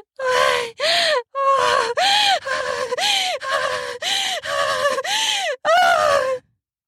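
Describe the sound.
Voices groan and moan during an intimate sexual encounter, in a rapid series of many short, loud vocal moans, each with an arching pitch, one after another with brief gaps between them.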